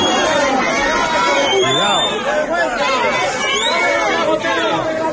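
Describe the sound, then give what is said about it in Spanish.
A crowd jeers and boos at the arrival of a regional Culture, Tourism and Sport minister, a dense, continuous mass of raised voices with scattered shouts rising and falling. “Escucha el abucheo a la llegada ayer del consejero de Cultura y Turismo y Deporte, Alberto Díaz Pico,”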